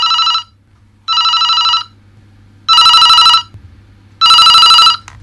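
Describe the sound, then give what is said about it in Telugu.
A telephone rings four times. Each ring is a loud, bright electronic trill lasting under a second, with pauses of near silence between them over a faint low hum. “ఇదిగో hello, ఆయన గారిది ఈ phone call.”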